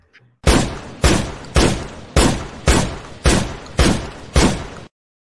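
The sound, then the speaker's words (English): Eight gunshots from a sound effect ring out at a steady rhythm. Each is a sharp, loud crack with a short fading tail, and there are no voices. “Big shots fired. Big shots fired.”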